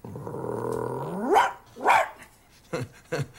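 A small dog barks and yips, beginning with a drawn-out growling whine that breaks into two sharp barks, then two shorter, quicker yaps, with no voices around it.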